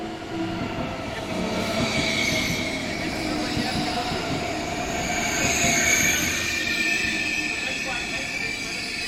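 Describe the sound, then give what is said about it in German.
An ICE high-speed train running on the rails gives a steady, loud rumble throughout, with high, thin wheel squeal drifting over the roar. “Und dann wollen wir drei Schwestern zum ersten Mal gemeinsam die Strecke fahren, auf der der ICE 884 am 3. Juni 98 verunglückt ist.”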